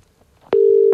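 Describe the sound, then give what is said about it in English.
A telephone line tone sounds while someone places a call, a single steady, constant pitch that starts abruptly about halfway through after a short click. It stays loud and unbroken to the end, with only faint low noise before it. “Hang on, I've just got to ring somebody. Hold on.”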